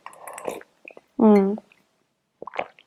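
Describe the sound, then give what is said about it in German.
Someone drinking a beverage: a few short, wet slurping and swallowing sounds separated by pauses, with a brief voiced sound in the middle. “denn ich muss erstmal was trinken”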